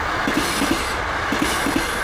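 A train runs on rails with a steady, loud rumble. A few paired wheel clicks repeat at a regular beat under the continuous noise, with no voices.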